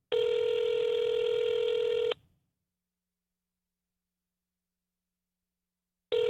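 An unanswered phone call ringing out: a loud, steady electronic ring tone lasts about two seconds, then about four seconds of silence, then the next ring begins.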